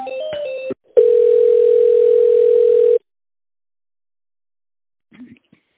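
A telephone ringing tone on a line while a call to a company is transferred to a secretary: a short burst of mixed beeps, then one steady, loud, mid-pitched tone lasting about two seconds before falling silent.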